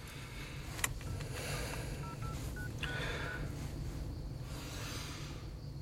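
A telephone keypad beeps as a number is dialled: a few short, faint tones over a steady background hum.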